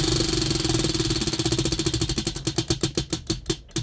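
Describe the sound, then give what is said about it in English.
A spinning wheel turned right beside the microphone: fast, even ticking that slows steadily as the wheel loses speed, the clicks spreading further apart toward the end. “I've got the microphone next to the wheel, and we will spin.”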